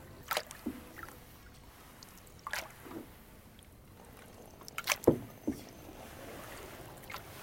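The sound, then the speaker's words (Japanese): A canoe is paddled across a calm, windless lake early in the morning. Soft paddle splashes and trickling water come in a loose series of quiet strokes. “ちょっと漕いでみます前から後ろへ。”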